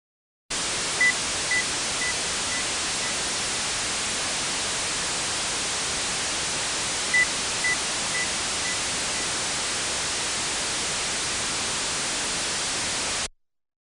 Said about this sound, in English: Now the signal is masked with broadband noise.